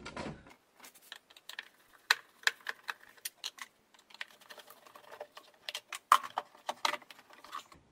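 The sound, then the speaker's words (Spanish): Repeated clicking and light metallic rattling as Phillips screws are removed from a car air filter housing: many sharp, irregular clicks throughout, with no talk. “Ahora el siguiente filtro, el del aire. El filtro del aire tiene aquí unos tornillos. De aquí de estrella. Aquí tiene uno, ahí tiene otro, ¿vale? Lo vamos a quitar.”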